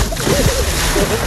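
Water splashes and sloshes as someone goes into the sea, with a steady, busy churn of liquid through the whole short moment.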